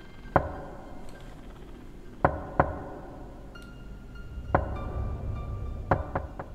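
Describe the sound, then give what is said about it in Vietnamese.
Sharp knocking on a door, several separate raps spaced irregularly, some single and some close together, standing out clearly above a faint steady hiss. “Thế nhưng ở bên ngoài kia, tiếng gõ cửa vẫn cứ vang lên, 3 tiếng 1.”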